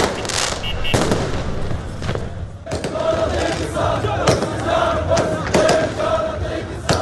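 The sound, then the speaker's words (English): Street celebrations at night in Baghdad mark the withdrawal of foreign forces: loud, continuous crowd noise and shouting, punctuated by many sharp firework and firecracker bangs crackling throughout. “here are the sounds of celebrations in the capital, Baghdad, on Wednesday night”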